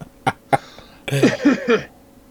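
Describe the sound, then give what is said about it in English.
Throat clearing: two short, sharp bursts followed by a longer, rougher voiced rasp, fairly loud and heard alone. “Nothing. I just cleared my throat.”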